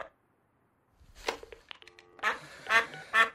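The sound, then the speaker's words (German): A duck quacks loose, raspy calls while wandering inside a room, a few separate quacks, the loudest clustered toward the end after a quiet opening. “Hier läuft eine Ente rum.”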